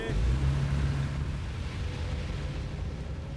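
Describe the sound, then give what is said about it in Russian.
Low, steady rumble of a car engine and road noise as the vehicle pulls away with a man in the back seat, slightly louder at first, then holding even to the end, with no voices. “Машина трогается”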